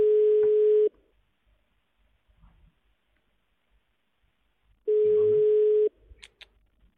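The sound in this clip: Ringback tone of an unanswered telephone call: two steady, medium-pitched buzzing tones, each lasting about a second, separated by a long silent gap with faint low clicks.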